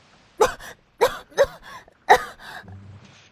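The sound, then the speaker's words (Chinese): Coughing after choking on a gulp of juice: a few sharp, throaty coughs in uneven bursts with brief gasps between, loud and alone, performed by a voice. “橙子险些没有被呛死，咳了半天才顺过气来”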